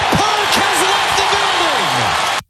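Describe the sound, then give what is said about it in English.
A game-ball slam sound effect: a loud, dense roar of crowd noise with shouting voices that runs throughout and then cuts off abruptly. “Game balls for a job well done today on the program sound like this.”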